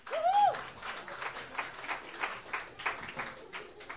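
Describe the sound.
Applause rises from the audience at a Sunday night open mic to welcome first-time performers, a sibling duo, with uneven bursts of clapping that swell and dip over a few seconds.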